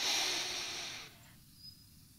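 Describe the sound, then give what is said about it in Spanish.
A deep breath drawn in through the nose, taken before walking during a guided walking meditation, makes a faint, airy hiss that lasts about a second and then fades into near silence. “Antes de caminar, inhala profundamente por la nariz.”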